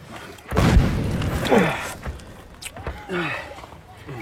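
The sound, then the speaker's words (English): A big trench mortar shell explodes near a dugout in the mountains, a sudden heavy boom with a rumbling decay, followed by men's voices. “There aren't any 420s in the mountains. They have big Skoda guns. I've seen the holes. This isn't a deep dugout. That was a big trench mortar.”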